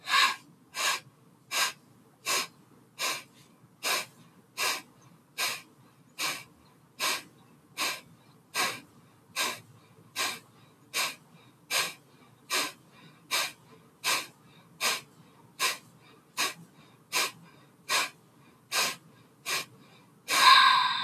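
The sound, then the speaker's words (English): Many forceful, evenly spaced breaths through the nose during a yoga breathing practice, each a short airy rush in a steady, unbroken rhythm, alone with no talk. “Again, if you're menstruating or pregnant, continue with the Ujjayi breath. So together, we'll take a deep inhale through the nose and begin.”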